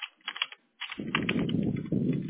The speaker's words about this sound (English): when I type it in, let me see. I'm going to do something here.